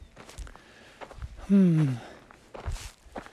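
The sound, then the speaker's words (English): Footsteps climb slowly uphill on a mountain path near Jamilena, soft steady steps interrupted midway by a brief vocal sound that falls in pitch. “We're moving away from Jamilena and we are basically hugging those mountains here. Slowly walking up, inching our way up.”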